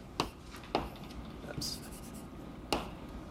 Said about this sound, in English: So I can just sort of sketch what these functions look like. So I'm going to plot as a function of x